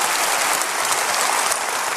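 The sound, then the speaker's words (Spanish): A church audience applauds to welcome first-time visitors, with steady, dense clapping from many hands that stays loud and even from start to finish. “Denles el mejor aplauso que usted pueda darles a ellos, por favor.”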